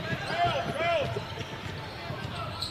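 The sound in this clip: Basketball dribbled on a court during a game: a few hollow, rhythmic bounces over a steady wash of crowd noise.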